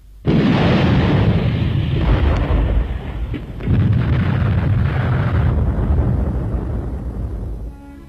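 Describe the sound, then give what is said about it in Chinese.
Artillery shells exploding on an empty position: loud, deep, rumbling blasts that hold as one sustained roar, surge again partway through, then fade near the end, with no voices. “队伍刚刚撤走，敌人的炮弹便在空阵地上爆炸了。”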